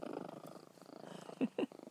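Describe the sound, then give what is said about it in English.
A cat purrs on a bed in a soft, steady, low rumble that stays faint throughout, with two brief louder pulses near the end and no speech. “as you can probably hear her purring away again on my bed, here she is”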